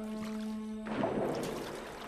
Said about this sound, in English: He walks to the sink, turns on a tap, and leans over to splash water onto his face.